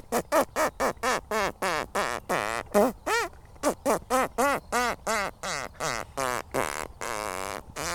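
A person imitates a hare's call through a split lip, making a rapid, evenly spaced run of many short, nasal, quacking squeaks with wavering pitch, alone for about eight seconds.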